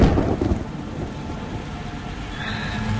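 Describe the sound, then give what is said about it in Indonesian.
Heavy rain with thunder: a low rumble is strongest at the very start, then fades into a steady, broad hiss of a downpour that continues evenly to the end. “Namun belum sampai ke parkiran, hujan keburu turun deras.”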